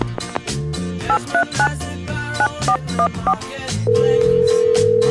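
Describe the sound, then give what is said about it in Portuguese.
A touch-tone telephone number is dialed as a rapid series of electronic beeps over background music, followed by a steady, unbroken tone. “Então, vamos lá. Vamos discar aqui.”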